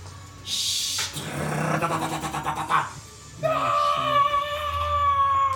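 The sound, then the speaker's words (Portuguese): A scream and then a creature's cry, used as sound effects in a tabletop role-playing game set in a mine. A sharp shriek opens, a rough growling, pulsing stretch follows, then a sustained tonal wail closes. “A gente ouviu o grito, ouviu o bichinho fazendo o barulho dele. Sim. Depois ouviu gritos.”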